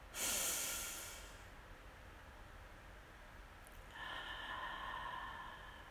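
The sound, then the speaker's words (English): A deep breath drawn in through the nose, a soft airy hiss that swells at the start and fades away. A quieter, steady breath follows later, all faint and without talk. “And take a deep breath in and notice what you smell.”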